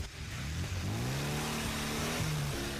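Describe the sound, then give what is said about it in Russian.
A car drives away, its mid-range engine revving with a loud, steady tone whose pitch climbs as it accelerates. No voices are heard. “Машина отъезжает.”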